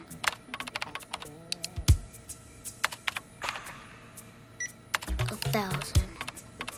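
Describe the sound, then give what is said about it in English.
Fingers type on a computer keyboard in many quick, irregular keystrokes, with pauses between runs and a denser flurry near the end. A voice is briefly audible among the clicks. “He clicks the mouse and removes 200 and begins to type again.”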